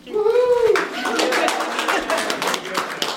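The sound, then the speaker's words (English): Hospital employees at Party Hospital in Hendersonville applaud the first COVID-19 vaccine shot given there. A voice calls out at the start, then dense, steady clapping carries on to the end. “That was the sound of employees at Party Hospital in Hendersonville just after Dr. Charna Regual received the first shot.”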